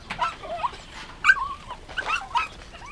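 Puppies at a campsite whimpering and yipping, a run of high, wavering whines and thin squeaks that come in several small, fairly quiet bursts.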